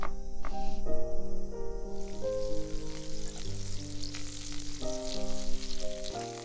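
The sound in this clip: Food fries in a pan during home cooking with the window open, a continuous soft hiss and sizzle running beneath a gentle melody of sustained notes.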